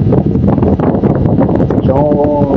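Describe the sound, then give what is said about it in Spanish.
Strong, warm wind blows in the central area, a loud, steady roar with gusty buffeting and rustling that pounds the microphone throughout. “¿Cómo se escucha? La verdad, ¿cómo se escucha el viento? Pero la verdad es que está bastante fuerte, pero medio cálido el viento”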